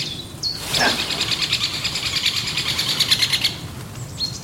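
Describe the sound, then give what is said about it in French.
A great spotted woodpecker calls near a dead tree with a large hole in woodland: sharp, high single calls at the start and end frame a long run of rapid, bright, repeated chirps. “Ouais, c'est le pic épêche.”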